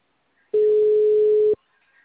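A single steady telephone tone, heard while placing a call, holds one flat mid-low pitch for about a second, loud and alone, then cuts off into near silence.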